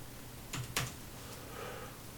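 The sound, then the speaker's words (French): Keystrokes from typing text on a keyboard: two faint, sharp clicks close together, then quiet. “Je tape mon texte.”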